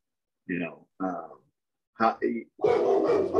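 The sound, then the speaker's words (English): A dog barking, a few short separate barks with pauses between them, then a longer, denser burst of sound at the end. “there's the dog. I have a dog.”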